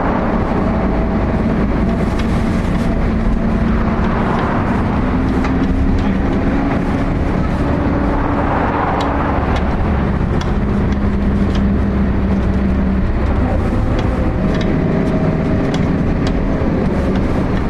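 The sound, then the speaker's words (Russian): A car drives along a street after leaving a hospital yard, giving a steady, low engine and road rumble that continues without pause. “Машина выезжает со двора больницы. Машина едет по улице.”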